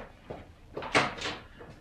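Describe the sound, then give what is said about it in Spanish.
A door slams shut to end an argument: a few knocking bangs in quick succession, the loudest sharp crack in the middle, followed by a softer thud. “Y papá cortó la discusión con un portazo.”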